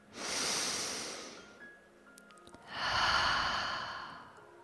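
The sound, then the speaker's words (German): Deep, slow breathing during a guided relaxation fantasy journey for children: two long, airy rushes of breath, each swelling and fading, separated by a short quiet pause. “Atme mal tief ein.”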